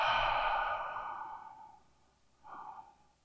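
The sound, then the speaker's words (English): During a guided meditation, someone takes a deep cleansing breath, in through the nose and out through the mouth. It is a long, soft, airy rush that slowly fades, followed by a brief fainter breath, with no talk. “Let's take a nice cleansing breath together. Great big inhale through the nose. Let it go out the mouth.”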